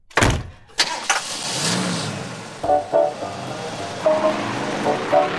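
A car engine runs while someone drives home, opening with a loud burst and then settling into a steady mid-pitched drone with a few brief swells, without talking.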